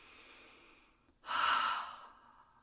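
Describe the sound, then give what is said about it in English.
A sharp exhale from the diaphragm during a guided breathing meditation: one loud, breathy rush of air lasting under a second, preceded by a softer, longer stretch of breath. “Breathe into the diaphragm, exhale sharply.”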